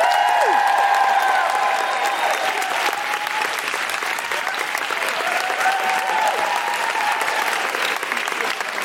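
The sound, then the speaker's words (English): Audience applause greets a comedian at a live show: dense, sustained clapping mixed with cheers and whistles, staying loud and even throughout. “Put your hands together and make extraordinary noises for the wonderful Jenny Eclair.”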